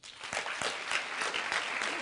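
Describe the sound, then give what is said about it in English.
Audience applause at a talk, a fairly quiet, dense patter of many hands clapping steadily for about two seconds without a clear build or fade. “How many of you applaud now if you occasionally wear orange?”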